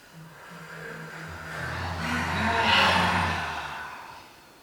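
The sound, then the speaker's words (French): A slow, deep inhalation during a guided breathing exercise: an airy rush that swells for nearly three seconds, then fades, with low sustained tones underneath. “J'inspire.”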